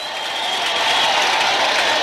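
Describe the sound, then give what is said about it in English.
Baseball stadium crowd cheering after an outfielder's catch at the wall in left center field, a broad, continuous roar that swells slightly early on and then holds steady and full to the end. “He made the catch. Wow, what a play. I saw the fans cheering.”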